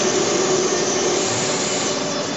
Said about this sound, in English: the ambience and some of the tyre manufacturing machines at Michelin Tyre Company.